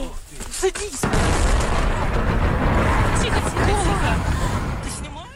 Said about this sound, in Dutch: Mensen filmden de enorme explosie en vuurbal met hun mobiele telefoon.